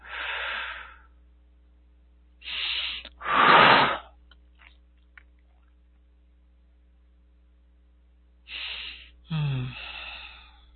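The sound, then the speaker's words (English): Deep breaths drawn in and let out during a guided healing session: several breathy whooshes of air separated by long pauses, one louder in the middle, over a steady low mains hum. “Take a deep breath.”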